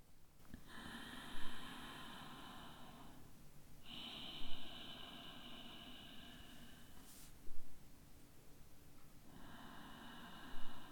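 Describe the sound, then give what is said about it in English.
Slow, deep breathing during a breathing exercise, a throaty breath made without the vocal cords. A few long, hissing breath cycles are separated by short pauses, each with a brief sharper sniff-like burst. “We'll begin with 10 rounds. Breathe with me.”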